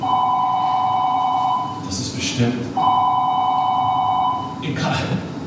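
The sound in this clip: A telephone rings in two long electronic bursts, each about a second and a half, with a short gap between them; a voice speaks briefly in the gap and after the second ring.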